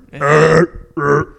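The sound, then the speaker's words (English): Loud, deep burp after drinking beer: a long, rumbling belch followed by a shorter second one. “I literally feel like I just burped the beer, the gas of the beer. That's a good one. That is a very good one. Fat burp.”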